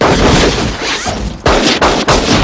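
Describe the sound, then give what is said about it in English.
Gunshots as bullets are fired into a rope around a beam to cut down a man being hanged: loud, dense blasts, with a few sharp, abrupt cracks in the second half. “As Herod shoots the last leg away and the chair falls, Ellen stands and pumps bullets into the rope around the beam, cutting it down and saving Court's life.”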